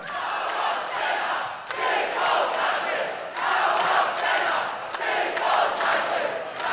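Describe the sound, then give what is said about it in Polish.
A concert crowd at a small stage cheers and shouts for a Polish band. The roar is loud and continuous, rising and falling in waves. “Jeszcze raz wielki hałas dla nich, zasłużyli na to.”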